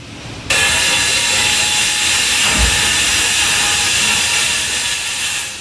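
Construction work noise in the streets of Murcia, near residential buildings: a loud, steady hiss cuts in abruptly after a brief quiet start, then holds almost unchanged, with one dull low thud partway through.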